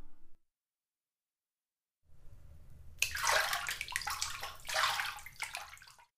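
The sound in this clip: Hot bath water sloshes and laps as a person settles in and soaks in a bathtub. A brief sound and a short silence come first, then soft, gurgling splashes that rise and fall for several seconds.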